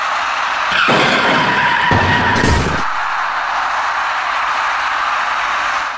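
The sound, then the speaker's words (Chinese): A harsh, loud skid of roughly two seconds as a white minivan coming down off an overpass at night strikes an electric bicycle rider on a quiet ring-road side road, over steady background noise. “我们看到这辆盘桥而下的白色小客撞上了一位电动自行车的骑车人，失去控制的骑车人翻倒于地后猛然甩了出去”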